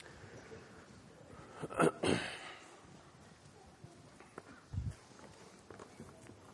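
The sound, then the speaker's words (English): A church audience standing up makes soft shuffling and rustling, faint overall, with a couple of louder bursts of movement. “How many ready for that? Let's stand.”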